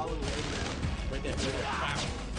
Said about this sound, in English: I think the bullets are leaving the chamber so slowly you can actually follow them as they go.